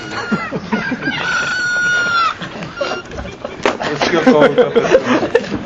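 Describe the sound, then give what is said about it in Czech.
A crowing rooster ringtone sounds from a phone, its drawn-out cock-a-doodle-doo rising over a woman talking steadily, with other voices and background murmur continuing after the crow ends. “To, co za mnou kokrhá, to je můj telefon, toho si nevšímejte.”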